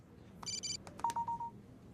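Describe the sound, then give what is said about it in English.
Keypad tones from a phone being typed on: a few short electronic beeps and taps in quick succession, followed by a steady pitched beep broken into brief pulses, faint against a quiet background. “types on her phone.”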